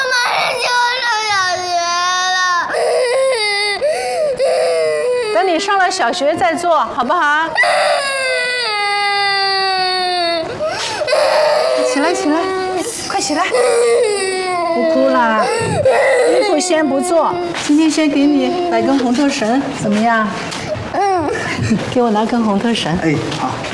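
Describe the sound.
A young girl cries in sustained, wavering wails and sobs after being refused new clothes, the crying continuing throughout while adults talk over her.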